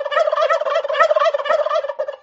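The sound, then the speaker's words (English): Turkeys gobbling frantically. A loud, rapid, rattling warble pulses on without a break for about two seconds. “The turkeys gobbled even more and made a frantic dash toward their yard. Feathers flew, and the screech of the gobbly-gobbling turkeys was deafening.”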